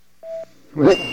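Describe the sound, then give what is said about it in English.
A single steady mid-pitched voicemail beep sounds briefly and cleanly, followed moments later by a burst of voice. “Just leave a message at the sound of the tone.”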